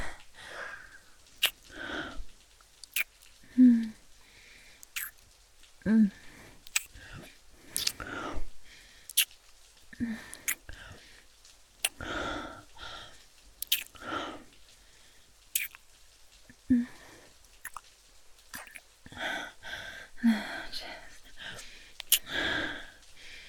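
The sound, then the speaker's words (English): Intimate kissing sounds: many short, wet smacks scattered irregularly across the stretch, each alone and fairly quiet, with soft breathy noises and faint murmured voice between them. “Kissing down your chest.”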